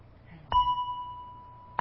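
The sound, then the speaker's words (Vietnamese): A Buddhist temple bell struck with a sharp onset, then a clear, steady ringing tone that sustains and slowly fades; a second strike lands right at the end. “Cho nên trước khi mình thỉnh vang lên một tiếng thì mình phải thức cái chuông để nó rung chuyển.”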